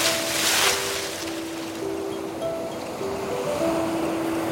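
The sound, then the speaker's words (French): Calm sea waves at an island shore the morning after a storm: a steady, soft wash of surf with a gentle swell near the start, and faint held musical notes running beneath it. “La mer est calme, bleu clair, presque transparente.”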